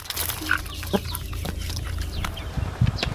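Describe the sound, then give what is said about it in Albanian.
Chickens cluck as they are fed in a garden in the morning, a few short, scattered clucks and calls over a low background. “nisi ushqej pulat”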